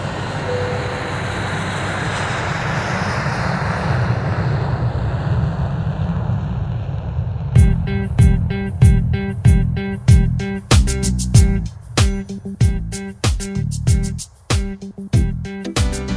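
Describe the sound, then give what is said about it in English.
An aircraft engine roars broadly as the plane takes off. A heavy rushing drone fills the first half, then gives way to a loud, steady rhythmic pulsing. “We will be airborne shortly.”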